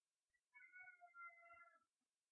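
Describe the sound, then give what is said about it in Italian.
A cat meows in one drawn-out, wavering call that holds for over a second before fading, faint and alone with no talk. “Gatto.”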